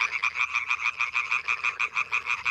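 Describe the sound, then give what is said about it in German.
Tree frogs croaking in a fast, steady train of many pulsed, rasping calls. The calls are moderately loud and heard alone, without voices. “Das klingt nach Laubfröschen und die gibt's leider immer seltener.”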